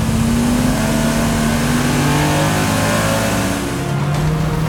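Engine of a vehicle driven like a motorbike in a video game revs hard, a steady loud droning whine that holds throughout and edges slightly upward in pitch.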